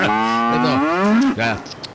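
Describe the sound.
A cow moos on a dairy farm in the Oriente region around La Ceja and La Unión, where it is being milked: a long, loud, drawn-out low moo followed by a shorter lowing sound.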